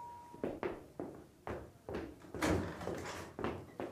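A front door opening for a guest: a quick series of dull knocks, thumps and clacks in irregular rhythm, with a brief steady tone at the very start.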